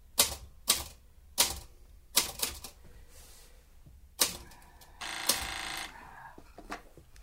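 A typewriter clacks as a sentence is finished: several sharp, separate keystrokes at uneven intervals, then a short pause and a longer rattling burst, with no talk over it.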